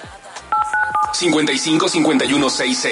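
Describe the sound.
Telephone keypad tones sound as a phone number is dialed, a few short, bright beeps in quick succession, followed by a voice.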